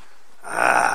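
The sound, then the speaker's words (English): A voice imitates an empty stomach growling: after a short quiet stretch, a rough, breathy, snore-like rumble starts and holds at a fairly loud level to the end. “you say, what is that? That's your stomach growling because it's empty, right?”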